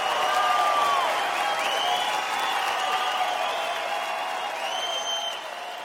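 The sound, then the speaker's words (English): A comedy show audience in Santa Rosa applauding, a sustained wash of clapping with high whistle-like cheers over it, easing slightly toward the end. “Clap for my gay friends tonight, who are amazing.”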